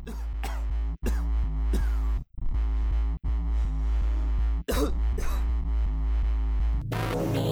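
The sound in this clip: Hacking coughs are chopped into an electronic dance track. Harsh bursts punctuate a steady, heavily distorted beat with a booming low end, and the music cuts out briefly a few times before changing texture at the very end.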